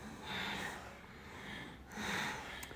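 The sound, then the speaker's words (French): Forceful bhastrika bellows breathing during a breathing exercise: two broad, airy breath rushes, each about half a second long, with a pause between them. They are faint and heard alone, with no talking. “Et puis, on commence le souffle de Bastrika.”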